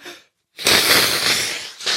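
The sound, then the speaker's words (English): A person blowing their nose: a faint, brief puff, a short pause, then a loud, breathy blast lasting about a second, followed by a shorter second blast at the end. “Oh, I need to blow my nose. Excuse me, just a second.”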